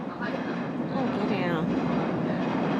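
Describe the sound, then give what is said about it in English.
A train passing in London makes a loud, steady rumbling roar with rail clatter and a faint high squeal that holds throughout. “train is rather noisy. Oh, yeah. Well, that's what happens when you live in London. I've got a Daniel impression ready to go, but I didn't want to get overrun by that train.”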